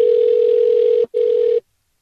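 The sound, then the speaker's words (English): A telephone ringing tone during a call, one steady mid-pitched hum that runs loud, breaks off for an instant, resumes briefly and then cuts to silence. “It's like ringing like it's a real person's number.”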